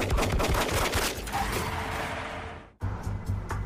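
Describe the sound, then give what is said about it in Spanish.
Rapid gunfire from two 9 mm pistols shot through windows cut in the side of a van beside a Cadillac. Many loud, sharp shots crowd together in a dense volley, break off into a brief silence, then a few more follow. “Dos hombres armados empujaron pistolas de 9 milímetros a través de unas ventanillas cortadas en el costado de la camioneta y abrieron fuego.”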